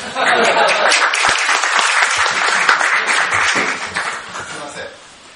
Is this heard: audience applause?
yes